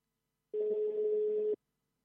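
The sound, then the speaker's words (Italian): A phone line rings back while a call is redialed after a dropped connection: one steady, mid-pitched electronic tone lasting about a second, alone and clean, with silence before and after. “scusate, è caduta un attimo la linea, proviamo a richiamare subito il compagno, perdonateci.”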